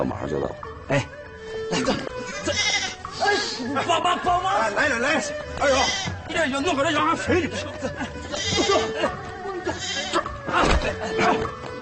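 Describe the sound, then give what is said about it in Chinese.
Sheep bleating, a pair of big, fat sheep being led away for slaughter for guests: loud, wavering, repeated bleats mixed with people talking throughout. “羊啊羊，你莫怪，本是桌上一道菜。”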